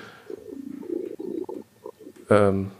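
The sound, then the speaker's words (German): A cat purring very loudly: a rough, low rumbling purr in uneven bursts, then a short, louder voiced sound near the end. “Okay, war gerade kurz von diesem ganz merkwürdigen Geräusch verwirrt. Das ist eine Katze.”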